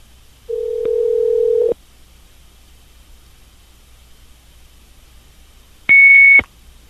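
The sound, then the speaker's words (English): Phone call tones: a steady, lower-pitched tone lasting about a second, then quiet, then a short, loud, higher-pitched voicemail recording beep near the end. “The person you have dialed can't take your call now. At the tone, please record your...”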